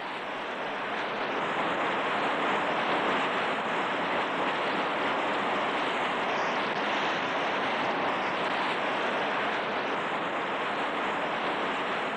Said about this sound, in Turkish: Rüzgar esiyor.